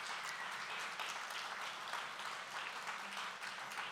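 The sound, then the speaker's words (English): Faint applause from a church audience welcoming people as they come forward, a dense, steady wash of many hands clapping without a break. “Come on, let's give them a hand as they come.”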